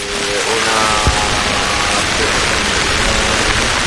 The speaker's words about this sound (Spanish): Estamos escuchando esa lluvia de fondo que está cayendo.